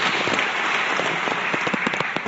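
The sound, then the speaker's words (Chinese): Audience applause follows a speech at a formal event: a steady, dense wash of many hands clapping that stays even in loudness throughout, with no voices. “我们再次把掌声送给戴国梁先生，谢谢。”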